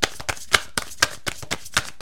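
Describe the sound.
Tarot cards are shuffled and drawn, giving many quick, crisp papery riffles and flicks in an uneven rhythm, each a sharp bright burst, heard alone at a soft level.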